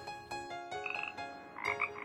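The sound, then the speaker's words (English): Frogs croaking in a quick series of rasping, buzzy calls, some drawn into brief, higher trilling notes, fairly loud and with no voices. “Frogs! Oh, look, look! There's a frog in my food!”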